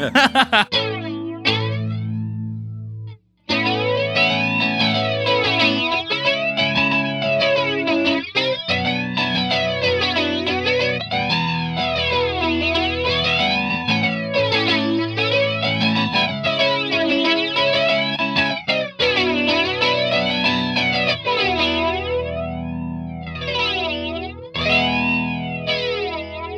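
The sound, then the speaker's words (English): Flanger effect on a music track being mixed: continuous loud, distorted sound swept by repeating whooshing, jet-like comb sweeps. There is a brief cutout near the start, then steady playback with no voices. “See, that's the thing I love about flanger. It just sounds so fucking cool”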